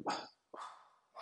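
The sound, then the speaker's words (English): A pet dog barking at home in central Manchester: three sharp barks with short pauses between them. The last bark is cut off at the end, and no other sound is heard. “Is that your dog? That's my dog, who's decided to”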